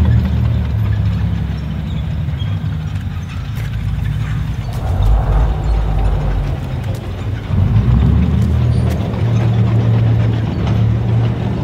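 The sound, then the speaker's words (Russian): German armored vehicles drive along a village street, their heavy engines rumbling in a loud, steady low drone with metallic clanking and rattling throughout, swelling slightly toward the end. “По улице деревни едут немецкие бронемашины.”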